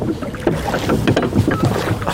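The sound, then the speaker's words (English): Rowing a boat on the river in Durham, with oar splashes and water sloshing in an uneven rhythm over steady wind noise, fairly loud throughout. “there you are, rowing away on the river”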